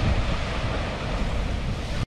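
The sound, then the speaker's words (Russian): An ocean wave crashes in a loud, continuous roar of surf mixed with wind noise, holding steady before cutting off abruptly. “Сейчас она как жахнет. Давай, волна. Не подкачай.”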